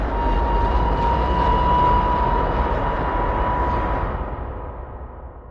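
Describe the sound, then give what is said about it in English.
Metal grinds against metal in a loud, continuous rumbling roar with a steady sustained tone running through it, holding level for about four seconds before fading away. “It was then that I heard the horrifying sound of metal grinding against metal.”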